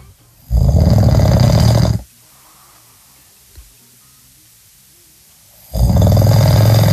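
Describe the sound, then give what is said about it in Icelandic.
A man snores: two long, loud, rasping snores separated by a quiet stretch of faint breathing. “hér ein hrota og það nú svona meiri hlutin sem að senda mér inn eru konur að senda mér hrotuhljóð eiginmannsins”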